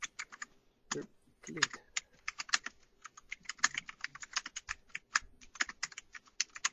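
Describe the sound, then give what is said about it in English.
Quiet typing on a computer keyboard while chatting in Roll 20: many light, clicky keystrokes in irregular bursts and pauses. “Just typing in the chat right now on Roll 20.”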